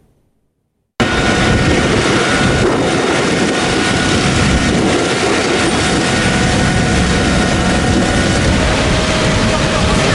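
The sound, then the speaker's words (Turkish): Loud, steady engine roar of Turkish firefighting aircraft flying over wildfires in France and Spain, a dense continuous drone that starts abruptly after a second of silence and holds unchanged. “Türk yangın söndürme uçakları Avrupa semalarında.”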